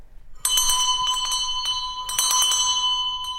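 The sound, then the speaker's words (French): A servant's call bell rings repeatedly in a bright, metallic jangle. Many quick strikes blend into a sustained, high ringing tone with no voices. “Chopin est venu avec son domestique polonais, Jan, toujours prêt à accourir quand monsieur le sonne.”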